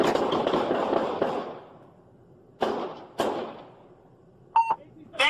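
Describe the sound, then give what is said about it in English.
Gunshots during a police street encounter: a loud burst of cracking noise that decays slowly, then two sharp isolated reports a moment apart, followed by short electronic beeps. “Shots fired.”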